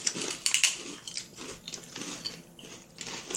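Crunching on sour cream and onion flavored chips, with irregular crisp bites and chews, fairly faint and with no talk over them.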